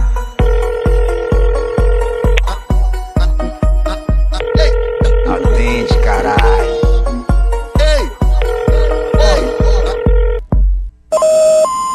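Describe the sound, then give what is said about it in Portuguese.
A mobile phone ringing tone over a thumping electronic dance beat: three long, steady mid-pitched tone bursts separated by gaps, under regular heavy kick drums and other musical sounds, ending with a brief, different electronic tone. “Vou pegar meu celular, vou ligar pra ela, vou saber onde ela está.”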